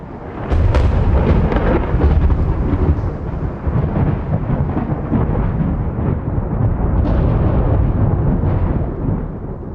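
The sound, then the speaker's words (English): Heavy artillery shelling at night during fighting against Egyptian forces near Chinese Farm: a loud, continuous rumbling barrage dense with many sharp blasts, holding a deep booming roar throughout with a few stronger cracks standing out. “The night sky reverberates with the shelling.”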